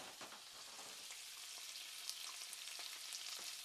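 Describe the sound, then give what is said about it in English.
Bacon frying on a stove, a steady hiss of sizzling fat with many small crackles and pops throughout, no voices. “Everybody recognize that sound? That is bacon on the stove.”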